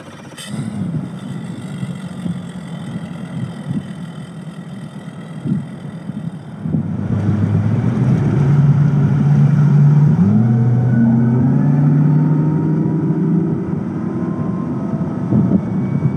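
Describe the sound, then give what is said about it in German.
A Mercury outboard motor on a rigid-hull inflatable boat roars: a steady engine drone swells louder partway through, then holds a strong, sustained roar whose pitch shifts slightly. “Mit aufbrüllendem Motor hob sich erst der Bug, dann der komplette Festrumpf des Schlauchboots aus dem Wasser.”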